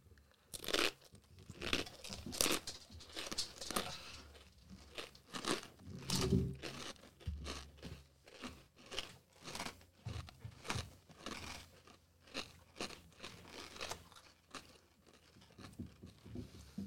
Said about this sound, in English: Tastes kind of how I expected a pine cone to taste. Yeah, you're eating a fucking sappy pine cone.